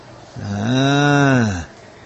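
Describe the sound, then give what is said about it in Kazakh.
A single cow moos, a long, low, steady call with strong harmonics that swells in and holds for just over a second before stopping abruptly. “Ая, бар монда маллар”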